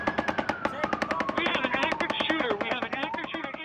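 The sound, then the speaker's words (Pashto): Sudden automatic gunfire at an outdoor local music gathering in Las Vegas: many rapid, evenly spaced shots in a fast steady rhythm, sustained throughout, with a voice heard over the bursts. “د لاس ویګاس په ښار کې خلک د محلي موسیقي اوریدو ته راټول شي ول چې یو ناڅاپه ډزې وشولې.”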